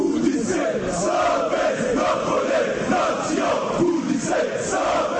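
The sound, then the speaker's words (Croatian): Loud, steady crowd chanting from football supporters of various fan groups at a street protest in Bosnia and Herzegovina against the national football federation's leadership. The roar of massed voices holds unbroken throughout. “Ovako su pripadnici različitih navijačkih skupina iz cijele Bosne i Hercegovine iskazali nezadovoljstvo protiv, kako kažu, korumpiranog i mafijaškog čelništva Nogometnog saveza Bosne i Hercegovine.”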